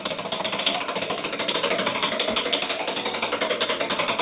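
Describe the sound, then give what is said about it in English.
Steady rattling whir of a game dial being spun during a quiz game: a dense, continuous clatter with fast, even ripples that holds at one loudness for the whole stretch, with no voices. “it looks like you're going to have to spin the dial this time then”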